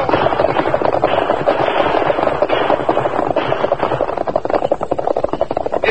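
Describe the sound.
Heavy gunfire from a Western shootout, with dense overlapping shots forming a loud, continuous barrage without clear gaps.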